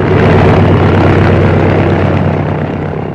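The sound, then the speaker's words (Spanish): Small light aircraft speeding down a runway and taking off, a loud, steady engine roar with a constant low drone that eases slightly toward the end, heard alone. “soltando el pedal del freno, el pequeño aparato se deslizó velozmente por la pista y en unos segundos alzó el vuelo.”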